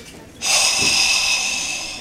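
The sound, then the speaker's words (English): A person exhales a single long breath, a steady airy hiss that starts abruptly and carries on for about a second and a half, fading slightly toward the end, with no talk over it. “you've gone into a bank and exhaled”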